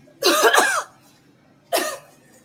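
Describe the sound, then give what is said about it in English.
A woman deliberately coughing at customers in a supermarket: two loud, harsh bursts, the first a longer double cough and the second a single shorter one, separated by a quiet pause. “she's coughing at me. She's coughing at me.”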